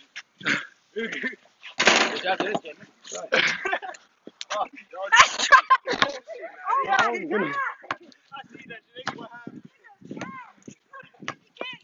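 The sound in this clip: Gunshots ring out in a video game fight as several sharp cracks scattered among a player's talking. The bursts come irregularly, some in quick clusters, over the full stretch.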